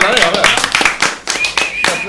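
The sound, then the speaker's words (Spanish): Clapping and applause in a studio, brisk and uneven hand claps that swell and dip, mixed with loud talk throughout. “Un aplauso. Un aplauso.”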